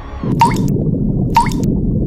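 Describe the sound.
Two water drops fall from a tap, each a bright plink with a quick upward-sweeping pitch, about a second apart over a steady low rumble.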